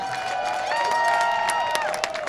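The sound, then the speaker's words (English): An audience applauds and cheers for Joey G. Diaz, a dense, steady wash of clapping with voices cheering on top. The sound rises slightly in the middle and continues to the end. “Give it up to Joey G. Diaz, huh?”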